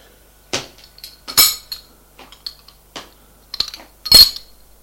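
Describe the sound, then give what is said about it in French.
Crockery and cutlery clink as a bowl and spoon are taken from a sideboard. Sharp, bright clinks and knocks come separately with quiet gaps between them, and the loudest clatter falls near the end. “La mère ouvre le buffet pour prendre un bol.”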